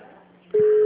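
Ringing tone of an outgoing mobile phone call: after a short stretch of low murmur, a loud, steady pure tone starts abruptly and holds unbroken to the end.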